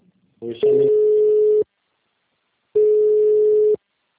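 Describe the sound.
A telephone busy tone follows a dropped call. A brief burst is followed by two steady, mid-pitched beeps about a second long each, with a pause between them.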